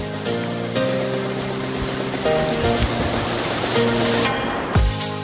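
Clean mountain water runs steadily from a source piped 400 metres through the forest on a gorge slope to a summer pasture, a continuous rushing splash that holds an even loudness throughout.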